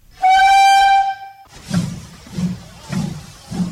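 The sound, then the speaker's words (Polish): A retro steam train on a historic 1884 railway line between Nowy Sącz and Chabówka sounds a loud, steady whistle for about a second, then gives four slow, regular, low chuffs. “mamy ostatnią bowiem okazję na podróż pociągiem retro, starą trasą kolejową z 1884 roku z Nowego Sącza do Chabówki”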